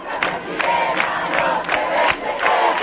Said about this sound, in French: C'est avec d'anciens slogans de mobilisation antérieure que les jeunes manifestants ont défilé sur l'une des artères principales de la capitale.